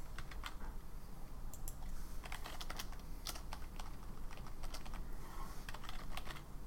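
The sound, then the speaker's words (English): Rapid typing on a computer keyboard: many crisp, irregular key clicks spill out in quick bursts with brief pauses, a steady, moderately loud clatter with no voices over it. “I can't even type today.”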